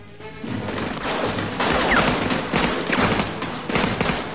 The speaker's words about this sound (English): The group races over the fallen masonry and takes cover, gunfire coming from all around.